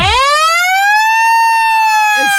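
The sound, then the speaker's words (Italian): A siren sounds at the end of a countdown: one loud, harmonically rich wail that sweeps quickly upward in pitch, then holds a steady high tone. “Ok, quindi è 30, 30 29, 29, 28. E poi a 0 la sirena.”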